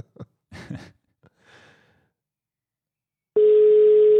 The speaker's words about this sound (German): So, mal gucken, wie die Verbindung nach Spanien ist. Ist jetzt natürlich ein bisschen weiter weg alles.